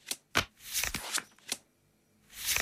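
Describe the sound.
Playing cards being shuffled and drawn during a trading card game duel: a few quick, papery riffles and slaps in short bursts with brief pauses between them, heard alone without talk.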